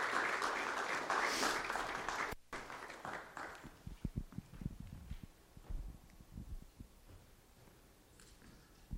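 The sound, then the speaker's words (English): Audience applause welcoming a woman to the microphone at a church service: a loud burst of clapping lasting a couple of seconds that cuts off abruptly, followed by quieter scattered knocks and footstep-like thumps. “I'm going to ask you to put a hand together and give her a real warm welcome.”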